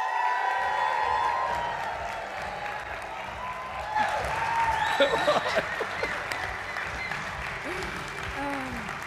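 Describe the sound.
A church ministry audience bursts into sustained applause with whoops and cheers as a speaker is welcomed, the clapping swelling midway and continuing under an announcer's voice.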